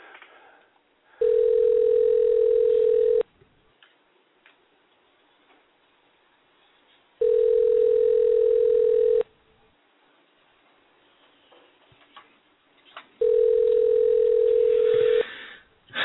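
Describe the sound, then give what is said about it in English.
Three evenly spaced bursts of a steady, loud ringing tone on a narrow telephone line while calling someone. Each tone lasts about two seconds, with a few seconds of faint line hiss and rustle between them. “But we're calling somebody.”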